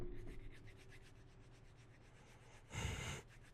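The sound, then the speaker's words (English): A voice imitates sanding a pocket knife: a run of many quick, raspy rubbing strokes at a steady rhythm, then one louder, longer breathy rasp near the end. “all I hear is”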